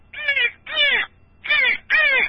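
Crow cawing: four loud, harsh, drawn-out caws in an even rhythm, each a raspy nasal call separated by brief silent gaps, with no other sounds.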